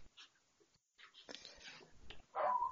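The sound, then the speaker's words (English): A dog barks: faint shuffling and soft noises lead to a single louder, tonal bark at the end, all quiet and without talk. “Oh, you have to excuse my dog there.”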